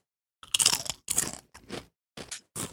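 Crunching bites of a sweet, creamy, mayo and tempura-shrimp flavored Japanese chip, five distinct crisp bursts separated by short silences, the first the longest and loudest.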